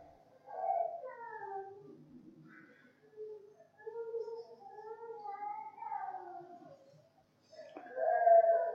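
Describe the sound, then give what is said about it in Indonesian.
A small child cries during a religious lecture, and the crying is picked up by the speaker's microphone. Drawn-out, wavering wails come in several bursts separated by short pauses, at a moderate level. “Iki bocah nangis ning kene apa suara sound system lain ya? Oh, masya Allah, ada anak kecil ya. Mohon maaf, kok suaranya kok kayak di mikrofon saya ini gitu”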